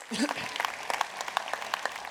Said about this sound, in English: See, when we started, we can clap for that, not for me, but for God.